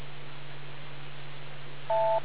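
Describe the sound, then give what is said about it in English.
A single short electronic beep sounds near the end, a clean steady tone over a constant low hum. “Wait for the beep.”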